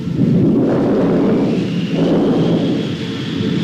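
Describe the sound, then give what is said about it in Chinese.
Rolling thunder of an approaching storm, a loud, continuous low rumble that swells and churns steadily for the whole stretch without any speech. “暴风雨要来了。”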